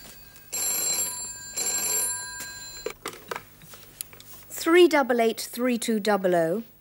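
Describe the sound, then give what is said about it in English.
A household telephone rings in two bright, bell-like bursts of rapid trilling tones. Voices talk after the ringing stops. “What? Excuse me, that's the phone.”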